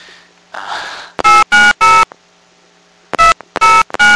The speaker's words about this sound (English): Please re-enter your prepaid card number. I dialed the wrong number.